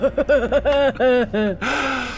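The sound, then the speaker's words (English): A voice imitates very quiet breathing in a performed demonstration: a rapid string of short, voiced, gasping breaths, then a longer breathy hiss. “I walk at him backwards and walk away and breathe very silently, like...”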